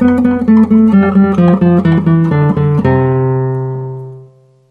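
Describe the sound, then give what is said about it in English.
Single notes of a scale ring out on an acoustic guitar as the plucking hand moves from about the 12th fret to the bridge and back toward the sound hole. Many quick notes step downward, then a final note sustains and fades alone. “I could start up, let's say I start about the 12th fret or something. Now I'm going to go down to the bridge, which I'm reaching now. Now I'm coming back down towards the sound hole.”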